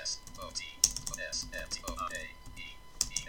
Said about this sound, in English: Okay, I'm going to type in storage.